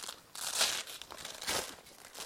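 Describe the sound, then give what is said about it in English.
Velcro strap pulled open on a backpack, giving a rasping, crackling rip that swells into two louder bursts over a steady crinkly texture. “And then as you un-Velcro it,”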